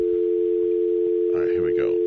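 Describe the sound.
A steady telephone tone hums while a number is being called, a constant pitch that holds throughout. A voice begins speaking over it near the end.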